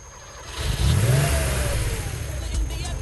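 A car engine revs, a low rumbling roar that swells sharply after a quieter start, briefly climbing in pitch before holding at a steady, loud drone.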